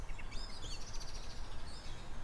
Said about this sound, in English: The little chattering there is a blackbird giving out to us, I'd say. They have quite a cross sort of alarm call.